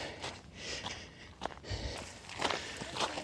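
Footsteps of a jogger running at an easy pace on a forest fitness trail. The footfalls are soft and faint, come in a loose, uneven rhythm, and no one speaks.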